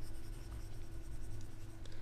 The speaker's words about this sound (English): Let me just sit back a little while you write that down.